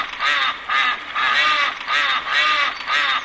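A duck quacking in a steady series of six nasal, raspy quacks, evenly spaced and fairly loud, with no talk.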